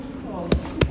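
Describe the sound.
Two sharp thuds of a shoe being hit, a fraction of a second apart, standing out above a continuous murmur of voices.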